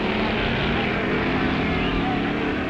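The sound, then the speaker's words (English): An A Gasser drag racing car nicknamed Grandma launches down the strip, its engine a dense, loud, unbroken roar that holds steady throughout. “And there goes his brother Phil and his A Gasser, affectionately called Grandma.”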